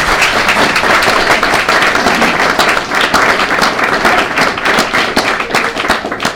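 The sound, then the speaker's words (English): Audience applause at a live talk fills the whole clip, a dense, loud and steady clatter of many hands clapping with no break and no voices. “If we could give Sasha a round of applause.”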